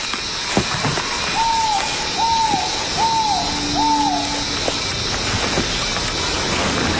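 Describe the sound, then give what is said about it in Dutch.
A bird in a tree gives a deep whistling call, heard from a distance: four evenly spaced, hollow notes, each briefly rising then sliding down, over a steady background hiss. “Ik denk dat hij daar ergens moet zitten, hè? Hoor jij ongeveer hoe ver het zou moeten zijn? Ja, ik denk dat we nog op zeker 100, 200 meter zitten. Want het geluid reikt best ver. Het is een wat dieper fluitend geluid.”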